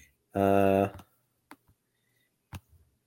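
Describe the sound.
A few sharp computer mouse clicks, spaced apart by silence, come after a brief voiced tone while a D&D character generator website is opened.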